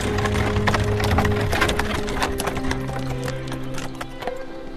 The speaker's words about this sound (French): Une voiture à cheval arrive à la forteresse de Joux, dans le Haut-Jura.